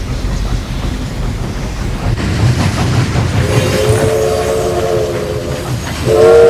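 A train passes with a loud, rumbling clatter of wheels on rails through flooded fields. Two sustained whistle blasts sound in the second half, the last one louder.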